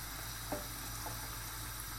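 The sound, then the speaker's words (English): Liquid is tipped into a risotto pan already holding chorizo, cod and small prawns, giving a faint, steady hiss and sizzle that runs evenly throughout without talk. “And I tip in the rest of the liquid.”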